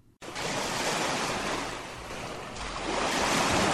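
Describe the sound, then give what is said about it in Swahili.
Waves wash onto the shore of Lake Albert at Sebagoro, Uganda, a continuous broad rushing surf mixed with wind noise, swelling a little louder toward the end. “Hao ni baadhi ya wanawake wanaoishi kwenye fukwe za Ziwa Albert. Na hapa tuko Sebagoro, moja wapo fukwe kubwa zaidi.”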